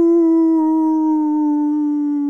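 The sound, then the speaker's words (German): A person howls like a wolf, holding one loud, steady, sustained note at an unchanging pitch for about two seconds with no break. “Jaule 30 Sekunden lang wie ein Wolf, ohne zu lachen.”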